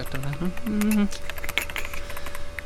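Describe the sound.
A web address being typed on a computer keyboard: many quick, light key clicks in an uneven patter over a faint steady hum, with a brief voiced or tonal sound near the start.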